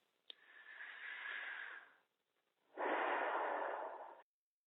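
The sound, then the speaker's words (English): Deep, slow breathing: two long, soft, airy breaths with a pause between, faint and steady, with no talk over them. “Take a deep breath in.”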